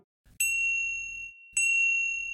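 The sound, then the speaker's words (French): A grandmother's mobile phone, lying under a piece of furniture, rings with two bright sustained chiming tones, each starting sharply and ringing on steadily. “Le portable de grand-mère, qui avait atterri sous un meuble, sonnait et vibrait en sourdine.”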